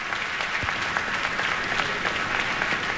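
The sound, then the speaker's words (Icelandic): Audience applause at the closing concert of an arts festival, after a duo performance: dense, steady clapping that holds at an even loudness for the whole stretch, with no voices rising above it. “Og tvíekjunum var að vonum vel fagnað á þessum lokatónleikum listahátíðar í Elborg.”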